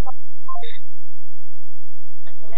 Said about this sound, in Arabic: اتصال. نعم مرحبا.